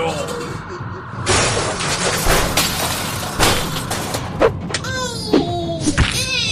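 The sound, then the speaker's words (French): A frozen orc shatters into icy fragments in a fantasy battle sound effect, with loud crashing and breaking bursts followed by scattered thuds and debris impacts. “Le premier orc meurt dans une gerbe de feu, alors que le second se tape en fragments gelés.”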